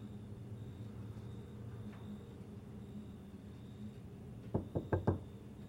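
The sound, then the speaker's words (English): Knocking on a bedroom door in a hallway at night: four quick knocks close together near the end, after a long stretch of quiet background hum. “She knocks on Susie's door.”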